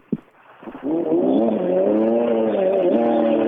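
A red BMW E36 race car's engine roars at a motorsport event. The harmonic drone swells after a faint start and holds loud and steady, with slight pitch wobbles and a short dip near the end.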